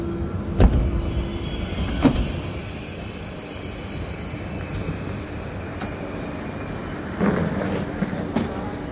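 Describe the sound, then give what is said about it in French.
Railway station ambience as a night train bound for Nice waits at the platform: a steady rumbling hum with high whining tones, broken by a few metallic clanks and thuds. “nous sommes ici gare d'Austerlitz et nous allons prendre le train de nuit direction Nice”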